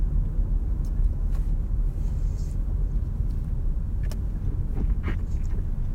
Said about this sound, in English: I just did a little trick. See if you'd notice if I drove by the house.